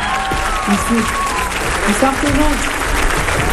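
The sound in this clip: An audience applauds composer Oussama Rahbani with dense, steady clapping that lasts the whole time. A voice speaks over the clapping.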